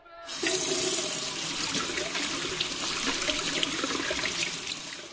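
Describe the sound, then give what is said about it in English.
Running water at an outdoor hand-washing station as hands are washed with soap: a steady, continuous splashing stream that starts abruptly and holds level for about five seconds, with no talk. “Kindly help me with water and soap. I wash my hands, then I can show you how it is used.”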